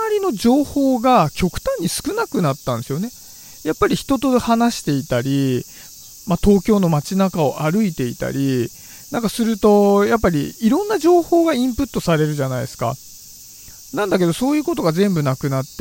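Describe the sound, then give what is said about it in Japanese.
Cicadas singing outdoors, a steady high buzzing drone under continuous talk from a person. “なんなら今こう聞こえているセミの声すらも聞こえないような状態になると、”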